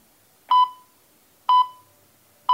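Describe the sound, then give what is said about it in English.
Australian telephone speaking clock time pips: three short, high, pure-tone beeps evenly spaced about a second apart, each with a quick fading tail, with no voices. “On the third stroke, the Prime Minister of Australia will be Scott Morrison.”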